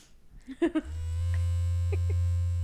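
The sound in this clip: A vibrator buzzes with a steady, low electric drone. It starts about a second in and holds an even pitch and loudness to the end.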